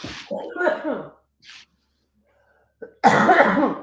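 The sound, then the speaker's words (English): A person coughs after choking on their own spit: a brief voice comes first, then a short sharp burst and one loud, harsh cough to close. “I choked on my own spit.”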